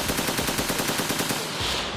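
Rapid automatic gunfire from an assault rifle shot into the ceiling, a steady burst of many quick, evenly spaced shots lasting about a second and a half before cutting off, loud and harsh.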